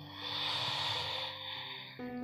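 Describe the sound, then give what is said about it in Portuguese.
A long, deep inhalation during a guided breathing exercise, a soft airy rush of about two seconds, faint, with gentle sustained musical tones underneath. “Inspira”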